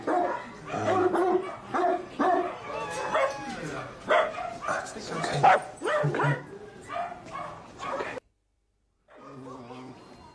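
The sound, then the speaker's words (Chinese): Several dogs bark and yip in a busy, overlapping stretch of many short, loud bursts. After a brief silence, a shorter final burst follows. “各种各样的狗叫啊”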